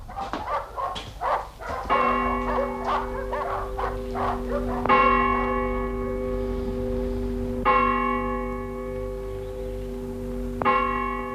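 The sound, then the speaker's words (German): Dogs bark at night in a few quick bursts at the start, then a deep bell tolls four slow, evenly spaced strokes, each ringing on with a long humming decay. “Die Hunde sind verrückt. Sie werden uns nicht schlafen lassen.”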